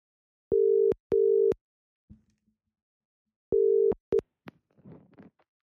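Telephone line tones as a call is placed: two steady, identical beeps, a pause, then another beep followed by a brief cut-off one, with faint rustling noise afterward.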